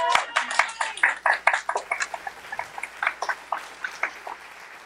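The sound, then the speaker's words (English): A church audience clapping to welcome a preacher, heard as many sharp, uneven handclaps that start loud and dense and gradually thin out and soften. “So on the count of three, I want you to give David Kerr a big hand as he comes to minister today.”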